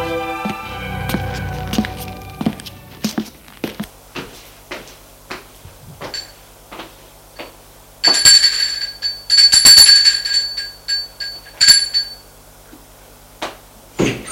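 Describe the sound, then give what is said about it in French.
A doorbell rings at an apartment door: a tonal chime at the start, then a series of sharp clicks and knocks and a few bursts of rustling noise. “Il va sonner à la porte de son appartement.”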